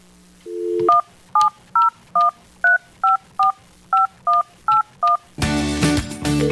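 Telephone keypad dialing tones: a brief low tone, then eleven evenly spaced beeps of shifting pitch, cut off by a louder, noisy burst at the end.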